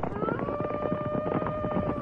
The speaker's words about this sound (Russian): В тишине, разбиваемой только стуком копыт да храпом коней, явственно слышался отдаленный волчий вой.